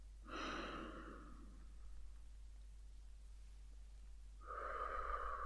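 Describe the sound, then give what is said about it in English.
Breaths are pushed out audibly during an exercise routine: two soft, airy exhalations separated by a pause, faint over a low steady hum. “Want to hear that breath out, please.”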